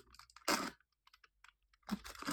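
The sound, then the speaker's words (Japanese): Antibacterial aluminium foil crinkles in sharp crackly bursts, one loud burst early and another stretch at the end, with sparse faint ticks in between. “アルミホイルか、音入ってますかねまず、このアイテム。アルミホイルですね。アルミホイル。”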